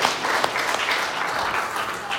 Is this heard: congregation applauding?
yes